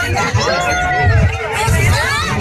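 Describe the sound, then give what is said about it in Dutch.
Spectators cheer as they watch a solar eclipse near totality. Loud overlapping voices shout and whoop with rising and falling pitch in a lively crowd babble. “Mensen juichen, ze houden elkaar ook eventjes vast, zie ik.”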